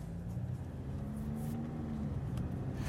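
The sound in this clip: A car driving off gives a faint, steady low engine hum with a soft tonal drone that holds evenly throughout, with no voices over it.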